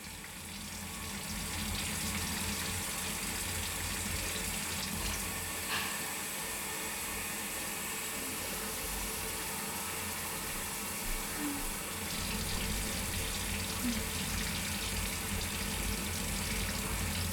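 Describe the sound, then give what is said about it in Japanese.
Water runs steadily while someone's hair is being rinsed, a continuous, even rushing hiss that holds at a constant level throughout, with no talking. “あとは流すだけだね。これも目をつぶっていてね。”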